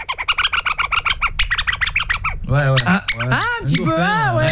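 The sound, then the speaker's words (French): Dolphin-like squeaking sound effect: a quick run of many bright, high chirps, followed by a denser, lower passage of warbling, distorted tones that wobble up and down. “Ça peut être un dauphin. Ça laisse place à l'imagination en fait.”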